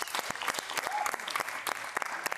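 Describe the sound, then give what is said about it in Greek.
Brief applause from a live audience, made of many crisp individual claps that blend into a lively patter. It holds at a fairly even level for a couple of seconds. “Δώσε το χειροκρότημα”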